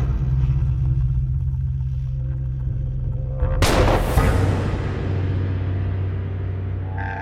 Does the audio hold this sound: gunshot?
yes

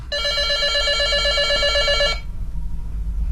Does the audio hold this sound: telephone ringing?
yes

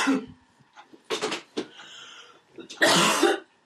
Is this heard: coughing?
yes

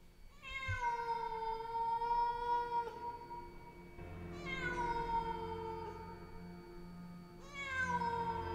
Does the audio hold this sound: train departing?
no

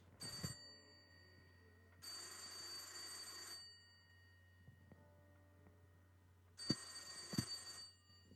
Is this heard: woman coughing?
no

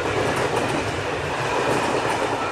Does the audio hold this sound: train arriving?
yes

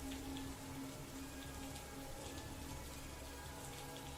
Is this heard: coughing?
no

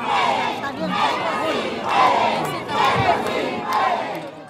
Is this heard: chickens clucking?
no

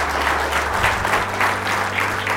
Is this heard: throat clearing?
no

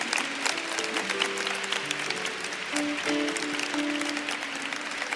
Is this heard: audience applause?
yes

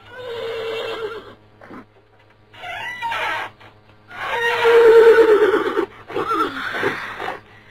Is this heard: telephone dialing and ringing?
no

